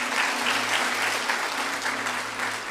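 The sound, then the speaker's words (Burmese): Steady applause from a church audience clapping their hands in praise, a dense, continuous wash of many overlapping claps that holds at an even loudness from start to finish. “လက်ကုပ်တီးလက်ဖျောက်ချီးမွမ်းရအောင်”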